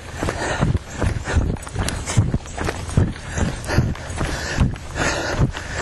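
A person's running footsteps land as a steady series of evenly spaced thudding strides over continuous background noise.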